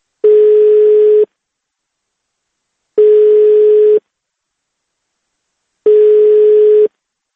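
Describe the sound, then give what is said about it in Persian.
Telephone ringback tone from an unanswered number: three long, steady, mid-pitched buzzing tones, each about a second long, separated by roughly two-second silences, with no voices. “ما شماره تلفن های خود مأمورات را نیز دسترس کردیم و تکرار به تکرار به وی زنگ میزدیم تا با خود وی نیز گفتگو کنیم، ولی هر دفعه از آن طرف خط این صدا را میشنیدیم.”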